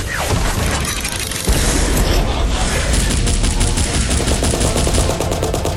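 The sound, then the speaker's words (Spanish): Video-game gunfire erupts as a dense, loud barrage, with rapid automatic bursts and metallic mechanisms overlapping continuously and no pause. “tú abre la puerta y yo lanzaré una granada de plasma. Abrimos fuego e intentamos salir dirección sur.”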